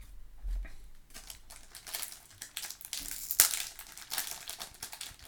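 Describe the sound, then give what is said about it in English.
Packs of hockey cards being opened: soft crinkling and rustling of wrappers with scattered tearing sounds and one sharp crackle midway, all fairly quiet and without talk. “I'm opening packs here from Timmy's.”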